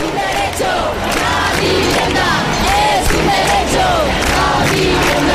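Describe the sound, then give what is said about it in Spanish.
Housing protesters in the street in Granada make a continuous, loud din of crowd noise with scattered shouts and cries above it. “que la gente salga a la calle y reclame soluciones. Este es el sonido del fin de semana.”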